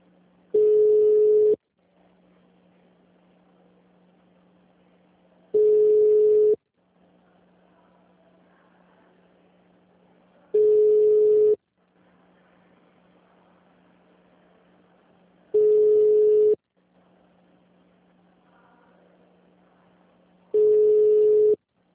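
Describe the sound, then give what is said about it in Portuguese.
Ringback tone of a call placed from a mobile phone: five long, steady single-pitch beeps spaced evenly about five seconds apart, with a faint low hum in the gaps. “Deixa eu ver se eu consigo falar com ela no meu celular para ela te atender.”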